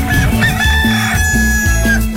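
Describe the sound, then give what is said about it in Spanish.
A rooster crows loudly, with clucking, continuing throughout the short clip. “El gallo canta, el Perú despierta.”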